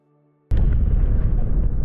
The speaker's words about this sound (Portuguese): É, o tu explodiu o droid. Esse aí já era. Vocês só vêm ele pegando fogo.